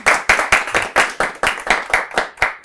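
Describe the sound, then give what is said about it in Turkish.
Applause for a person: brisk hand claps in a steady, even rhythm, about a dozen sharp, loud slaps in quick succession with no voices over them. “Yani Yaşar'a bir alkış ya.”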